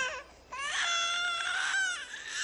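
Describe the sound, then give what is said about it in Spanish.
A baby monitor alarm sounds as a baby-like cry: a short whimper, a brief dip, then a long, high, wavering wail that stays loud for nearly two seconds before easing and rising again. “¿Eh? ¿Qué? ¿Qué? La alarma del bebé.”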